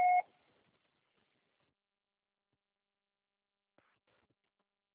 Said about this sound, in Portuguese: Grave seu recado, você só será tarifado após o sinal.